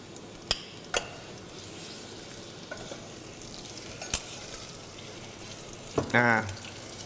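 Garlic and shallots fry in a pan as sugar goes in, giving a steady low sizzle broken by a few sharp clicks of a utensil against the pan.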